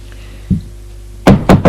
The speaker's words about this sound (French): Il frappe encore une fois.